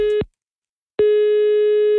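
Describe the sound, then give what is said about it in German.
A telephone ringing tone sounds as a call is placed to a listener: a steady, mid-pitched electronic beep cuts off, then after a short silence a second beep holds for about a second. “Und da rufe ich jetzt mal den Stefan aus Rüttenscheid an.”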